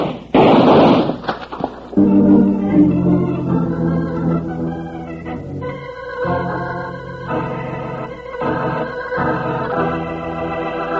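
Gunshots from a hidden sneak gun burst out in a loud, quick cluster of blasts, then give way to a music sting with sustained, layered tones.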